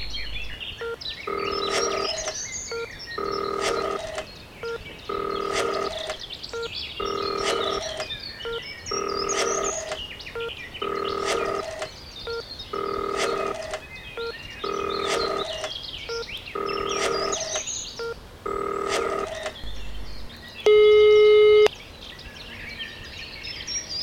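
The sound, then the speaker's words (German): Telephone tones pulse during a call to a vehicle inspection office: many evenly spaced tone bursts repeat about every two seconds over faint background noise, and a short, different tone closes the sequence. “Vielleicht kann man das ja auch telefonisch regeln. Ich rufe da jetzt mal an.”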